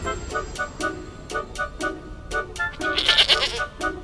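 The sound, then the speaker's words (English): A goat bleats over and over in a quick series of short, wavering cries that come in bursts, with the last few louder and harsher. “Smoke erupts from underneath the stone tablet, forming into a goat.”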